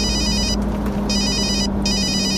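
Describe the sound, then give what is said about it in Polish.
A telephone bell rings in three electronic bursts separated by short gaps, loud and alone over a steady low hum. “Dzwoni.”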